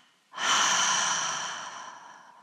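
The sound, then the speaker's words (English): A forceful exhale through the mouth during a meditation breathing exercise: a loud, breathy rush of air that starts abruptly and then slowly fades over about two seconds. “Tense the body and hold the breath, and double exhale through the mouth.”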